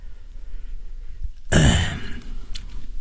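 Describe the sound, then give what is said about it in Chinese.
A single light cough from a Buddhist master beside a butter lamp, a short, sudden throat-clearing burst about halfway through, with quiet stillness before it and a softer tail after. “轻轻地咳了一声”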